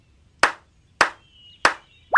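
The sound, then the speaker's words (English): Three sharp hand claps, loud and evenly spaced, in a children's clapping and counting game. Each clap is a crisp slap that dies away quickly. “And next, you clap with your hands, like this.”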